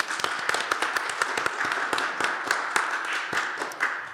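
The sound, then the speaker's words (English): Audience applause welcoming a speaker: many overlapping hand claps form a dense, steady, bright patter across the whole clip, with no talk over it. “So please give me a hand on welcoming Nana Abba.”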